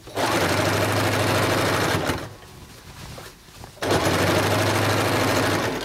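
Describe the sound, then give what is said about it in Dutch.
A sewing machine runs, worked by a tailor in a small room. It gives a loud, steady mechanical whir in two long stretches, with a short, quieter pause between them and no talk. “En daar is hij achter een naaimachine gekropen”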